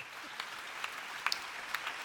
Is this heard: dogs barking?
no